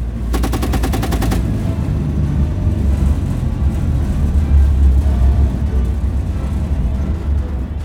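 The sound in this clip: A 7.62 calibre machine gun on a CV90 armoured vehicle fires at a shooting range in one rapid, evenly pulsed burst of about a second. A heavy, low engine rumble follows and continues alone.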